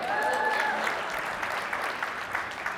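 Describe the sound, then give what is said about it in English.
Audience applause, a steady wash of clapping that holds at an even level through to the end. “You can clap.”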